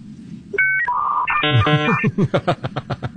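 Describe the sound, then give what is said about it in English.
Telephone dialing tones: a short series of electronic keypad beeps at differing pitches in quick succession, then a fast run of pulsing tones. “Dial up Obama. Here we go.”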